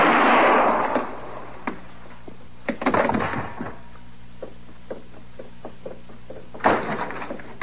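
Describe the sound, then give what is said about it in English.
Gunshots ring out during a Western frontier confrontation as a marshal tries to arrest an outlaw: a few loud, sharp, reverberant blasts spaced several seconds apart, with lighter knocking sounds in between. “I heard them shots.”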